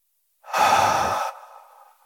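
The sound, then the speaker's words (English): A deep breath in and out, alone: a loud, airy breath of under a second followed by a softer, trailing release. “So we're going to breathe all the way in and let it all the way out. So deep breath in,”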